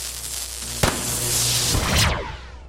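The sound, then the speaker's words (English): Gunshot fired at a fleeing villain in a comedic audio drama: one sharp, loud crack, then a sustained noisy rush and a sweeping whoosh that fades out. “He's gone. I was able to get a shot off.”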